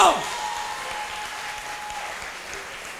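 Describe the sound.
A church audience applauds in acclamation of God, a steady, dense wash of clapping that holds at an even level after a brief louder onset.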